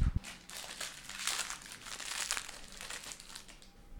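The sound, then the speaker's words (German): Crinkling of a fortune cookie's plastic wrapper being torn and opened, a loud, continuous crackling rustle that swells and eases throughout, with no voices. “Perfekt, da weiß ich auch, was ich heute Mittag zu essen bekomme, nämlich den Glückskeks.”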